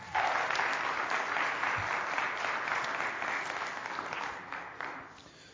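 A church audience applauds to welcome the pastor on the first Sunday morning of 2018. The clapping is loud and steady for the whole stretch, easing only slightly toward the end.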